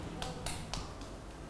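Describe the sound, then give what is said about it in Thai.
A few sharp, scattered claps from children in a classroom as they applaud a classmate, spaced unevenly over about a second before the sound dies down to quiet. “เด็กๆปรบมือให้น้องบาสิตด้วยค่ะ”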